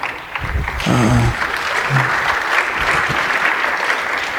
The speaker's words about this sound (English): thanks for the applause